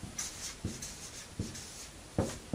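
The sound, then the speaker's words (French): Handwriting: a few faint scratchy strokes of writing by hand, each a brief rough burst separated by short pauses, with a soft hiss between them. “Je vais l'écrire ici.”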